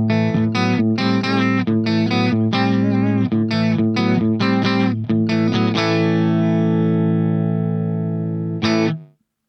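Clean-toned electric guitar riff, bright and articulate, with crisp chord stabs and short gaps, then a long sustained chord that rings until one last short strum, after which the sound cuts off.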